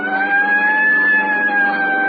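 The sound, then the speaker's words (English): A police car siren wails loudly and continuously, holding a steady, bright tone with only a slight waver in pitch. “I'll hit the siren. You get the light.”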